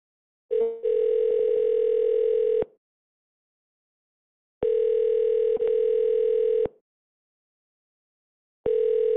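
A voicemail recording tone sounds on a tattoo shop's phone line as three long, steady electronic beeps at a mid pitch, each about two seconds long and separated by silences. The last beep is cut off.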